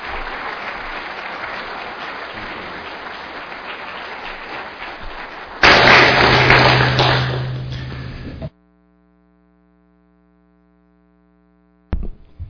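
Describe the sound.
A church audience applauds to welcome a guest preacher. The steady clapping swells louder partway through, then stops abruptly. Silence follows, and a brief sound comes at the very end.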